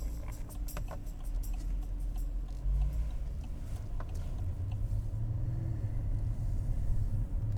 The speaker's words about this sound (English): here we are once again, driving around the big city streets of Vancouver.